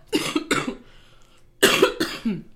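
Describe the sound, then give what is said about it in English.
A person coughs in two harsh clusters: a few rough coughs, a short pause, then a few more. The coughs are loud and stand alone, with no talking. “I feel so terrible that people have to hear me cough right now.”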